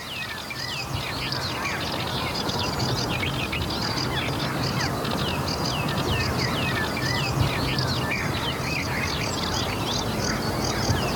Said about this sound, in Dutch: De zon komt voorzichtig op. En we horen hier de rietzanger.